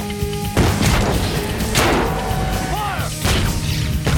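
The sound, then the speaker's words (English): Tank cannon fire, with a shell bouncing off another tank's armor plate. A few heavy booms and crashes cut through dense, continuous battle noise. “rotates his turret to the rear and fires at the super tank. The shell bounces off the super tank's armor plate.”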